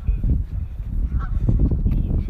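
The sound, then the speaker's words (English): Geese honk beside a lake, several bird calls rising over a continuous low rumble. “That's the geese. We have do you hear the happy geese in the background? Listen.”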